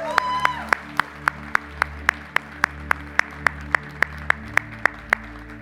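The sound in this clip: Congregation at a church service clapping in celebration, many crisp claps in a steady, evenly spaced rhythm over sustained music.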